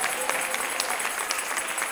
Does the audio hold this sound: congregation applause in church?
yes